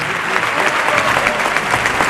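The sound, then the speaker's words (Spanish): A bullring crowd stands and applauds at a bullfight, a dense, loud roar of clapping that holds steady for the whole stretch without a break. “la plaza que estalla y se pone en pie aplaudiendo a Roca Rey”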